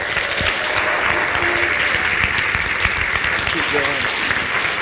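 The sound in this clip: Congregation applause welcoming a preacher to the pulpit, a steady, even wash of clapping that continues without a break for the whole span.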